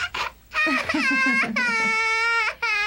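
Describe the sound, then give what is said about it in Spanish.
A baby cries in a dubbed cartoon: choppy, sobbing wails break into a long, high, sustained cry near the end, loud and alone. “Ya no seas travieso, bebé, y deja de llorar.”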